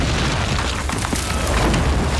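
Explosion of a German anti-aircraft gun in a video game: a dense, loud, booming rumble that stays heavy and sustained for the whole stretch, without a clear single blast.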